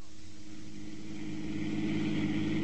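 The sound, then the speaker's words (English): A car engine while driving, a low, steady rumbling hum that stays quiet and even throughout with no breaks and no voices. “I was driving Misto back to the Casablanca Club”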